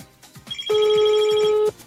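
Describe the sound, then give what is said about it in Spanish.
A telephone rings while the line is being test-called: one loud, steady electronic ring lasting about a second, a sustained bright tone with high overtones, set against fainter low background noise with no voices. “Está sonando, ¿vale? He sido yo el que he llamado, ¿eh?”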